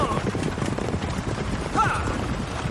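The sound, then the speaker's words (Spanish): Horses gallop in a western film scene, making a rapid, continuous drumming of hooves over a dense, noisy background at a fairly even loudness. “Los caballos galopan.”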